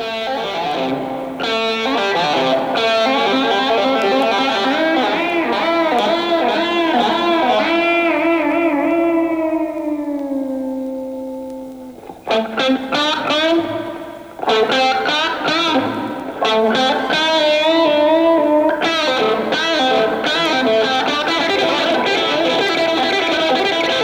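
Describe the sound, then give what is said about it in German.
An electric guitar plays alone with reverb, heavy vibrato, sliding bent notes, fast runs and feedback. It is loud and distorted, with a long sustained bend that fades out, then quick flurries of notes. “Hall, Lautstärke, schleifende Töne, starkes Vibrato, schnelle Läufe und Rückkopplungseffekte. Es ist nicht schwer zu erkennen, weil hier die Gitarre ganz allein spielt.”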